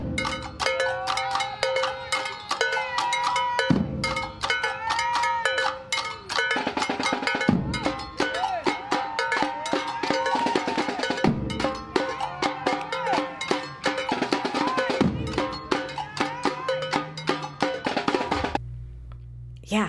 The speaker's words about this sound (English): Boomshake street drummers make music for the movement.